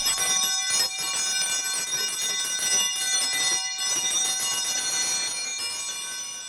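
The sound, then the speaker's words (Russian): A theatre's electric bell rings continuously to signal the start of a performance. The loud, bright metallic ringing holds for several seconds with rich overtones and breaks only in brief dips. “Прошу, а я вас покидаю, пора давать звонок.”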